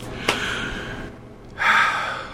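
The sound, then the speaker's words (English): A 60-year-old patient takes one deep breath for a stethoscope check of the lungs from the back. A breathy inhale is followed by a pause and a louder, rushing exhale. “Let's listen to your lungs in the back, okay? Big breath in and out.”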